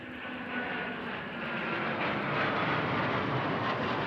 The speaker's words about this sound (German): Erst sind es nur 3 kleine schwarze Punkte am Himmel. Aber nur Sekunden später sind die 3 Eurofighter-Kampfflugzeuge der Bundeswehr deutlich zu erkennen.